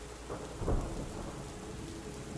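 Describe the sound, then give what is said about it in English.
Thunder rolls in the distance as a low, soft rumble that swells briefly, heard under a steady, dense hiss of heavy rain. “In the distance, thunder rolls”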